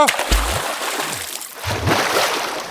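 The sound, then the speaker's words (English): A paddle splashes and sloshes water as a canoe is paddled along a river, with irregular strokes and churning water that swells and fades. “Is this your first time paddling a canoe, young Black Robe? It is. Don't pull so forcefully. You will tire yourself or tip us over.”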